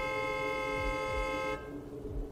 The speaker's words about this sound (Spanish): sonó un claxon. ¿Quieren taxi? Un taxista había orillado su vehículo